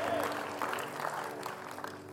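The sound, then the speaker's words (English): A church audience claps hands during a service. Steady, moderate clapping blends with voices and a sustained tone underneath. “Why don't y'all clap your hands again?”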